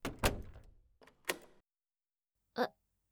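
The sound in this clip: A door being opened, heard as a few faint, short clunks and clicks spaced apart in otherwise near silence.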